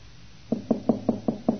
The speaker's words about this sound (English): Here's a knock on your door.